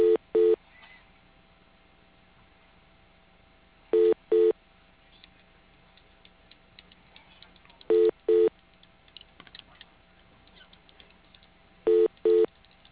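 Telephone keypad tones as an extension is keyed into a winery's automated phone menu: four pairs of quick, crisp beeps roughly four seconds apart, heard over a narrow phone line with faint hiss and scattered clicks between.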